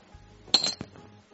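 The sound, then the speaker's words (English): Dice rolled during a tabletop game: a short burst of hard clattering clicks that quickly settles, heard alone against a quiet background. “Best two out of three on the dice roll.”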